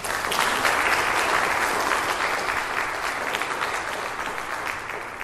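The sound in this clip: Audience applause welcomes a guest speaker at a Wednesday-night church gathering: dense, even clapping that holds steady and eases slightly toward the end.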